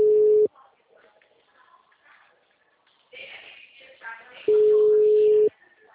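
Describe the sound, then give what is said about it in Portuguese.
A telephone ringing tone while a call goes through: a steady, low single-pitched beep lasting about a second, heard twice with a long pause and quiet talk in between. “Eu tô ligando pra ela”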